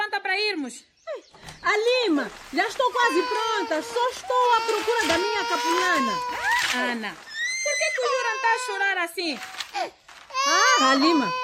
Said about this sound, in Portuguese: Chora muito. Mas será que ele tem fome? Não. Mamou bem.